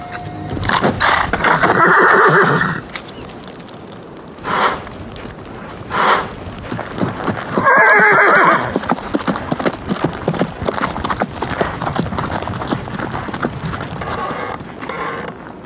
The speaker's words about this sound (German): Zum letzten Mal stieg der Hengst hoch. Sein rechter Vorderlauf zerschmetterte dem stattlichen Grafen den Schädel und beendete seine Leiden.